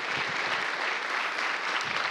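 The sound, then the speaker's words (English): An audience applauds young performers after an evening show, a dense, steady wash of clapping that holds at an even level throughout, with no voices over it. “Let's give them another round of applause for the good work that they put in.”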